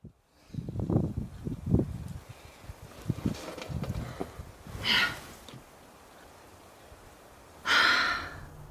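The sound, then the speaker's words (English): Hard breathing of a rock climber scaling a very tall, difficult boulder without a rope: uneven puffs, snorts and quiet rustles, with two strong, sharp exhaled bursts in the later part. “That sound is somebody in the zone. It's the rock climber Nina Williams climbing a very tall, very difficult boulder without a rope.”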